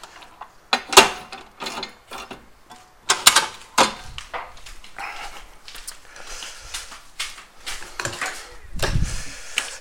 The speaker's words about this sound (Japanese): あれちょっと待ってよこのうちのね郵便受けどうやって開くんだったかなというああいろいろ届いたねちょっと待ってね